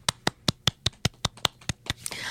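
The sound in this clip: A single person clapping to mark a first pre-recorded show: about eleven sharp, evenly spaced claps at a steady rhythm, followed by a brief rush of noise.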